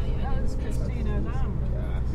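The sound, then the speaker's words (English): Steady low engine and road rumble from a car driving through the war-damaged centre of Izum, a frontline city in Ukraine, forming a continuous even drone while a person talks over it throughout. “I'm just driving through the centre now.”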